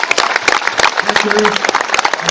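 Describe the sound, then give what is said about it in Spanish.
Applause from a gathered group of comrades at an event with poem recitals, with many loud, dense claps running throughout and voices briefly audible within it. “Un aplauso, compañeros y compañeras.”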